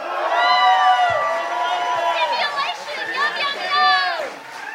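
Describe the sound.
A debate audience cheers and makes noise, with many voices whooping, shouting and yelling at once, loud and sustained for several seconds with a brief swell near the end.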